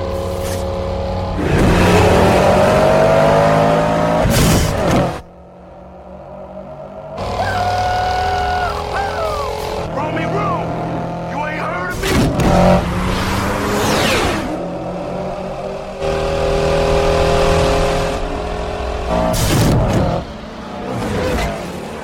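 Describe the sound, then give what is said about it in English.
Street race cars rev and accelerate away in several loud bursts of engine roar with climbing pitch, broken by short quieter gaps and whooshing passes. “And they're off. Roman and Fabio tear down the street with Fabio taking an early lead.”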